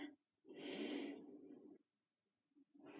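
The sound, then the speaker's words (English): A slow, deep inhale lasting over a second, soft and quiet, followed after a short pause by the start of another breath; no words are spoken. “I inhale you,”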